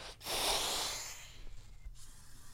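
Breath passing through a breathing device held in the mouth: one loud, airy rush of air lasting about a second, then quieter low rumbling.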